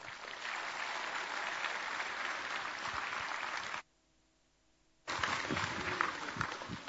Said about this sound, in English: allow me to invite you to put our hands together as we welcome Brother Reuben to the front here